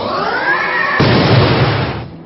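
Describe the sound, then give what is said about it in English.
A Spirit Force attack hits in a video game: a bright, harmonic whoosh builds first, then an explosive burst erupts midway, roaring loudly before tailing off near the end. “Pantherbit used Spirit Force.”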